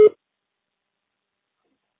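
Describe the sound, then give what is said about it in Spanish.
A voicemail beep sounds once, short and steady in pitch, right at the start. Silence follows for the rest of the time. “grabe su mensaje después del tono”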